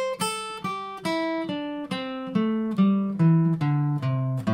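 A guitar scale played flatly, without expression: single plucked notes, evenly spaced and even in loudness, step steadily downward in pitch, with each note ringing clearly until the next. No one speaks over the run.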